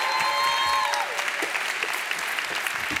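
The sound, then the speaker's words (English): Audience applause greets a speaker coming to the stage, a dense, steady wash of clapping that holds at an even, loud level for the full three seconds. “would you put your hands together and please welcome my daughter, McKenna Fishbook, to the stage as she comes”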